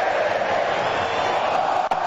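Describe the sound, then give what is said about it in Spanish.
Spectators' steady roar fills a football stadium in Vancouver as Colombia protects a 1-0 lead in the final minutes, a dense, unbroken crowd noise with no single shouts standing out. “Escucha el público.”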